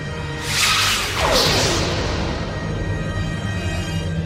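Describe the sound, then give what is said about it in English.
Photon torpedoes fire in a sci-fi effect: a loud, bright whooshing burst, then a second swishing sweep that slides downward in pitch, trailing into a steady low hum. “Photon torpedoes ready. Dispersal pattern, Sierra. And fire.”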